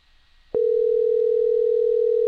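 A telephone voicemail tone: after half a second of near silence, one steady, unwavering note starts abruptly and holds loud and unbroken until the end.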